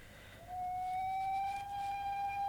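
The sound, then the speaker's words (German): A train whistle from a nearby railway station sounds as a single steady, fairly high tone that starts about half a second in and holds unbroken to the end, faint and alone over low background hiss. “Was pfeift denn da? Ah, drüben ist der Nordbahnhof.”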